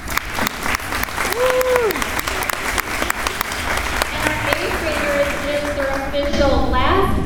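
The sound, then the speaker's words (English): Audience applause for seventh-grade students at a school Christmas concert: dense, steady clapping fills the whole clip, with cheers and voices rising over it. “They're very, very excited for their first Keller concert, so we can give them a round of applause”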